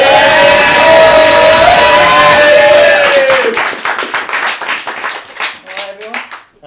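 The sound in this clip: Audience applause and cheering welcomes a poet to the stage at a live event, with loud sustained clapping mixed with whoops and shouts that thins into scattered individual claps near the end.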